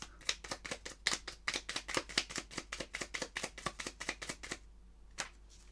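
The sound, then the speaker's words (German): Shuffling of a deck of playing cards: many rapid, crisp riffling clicks in a steady run, then a short pause and a couple of faint taps. “Ganz genau, man mischt sie. Ich mische die Karten.”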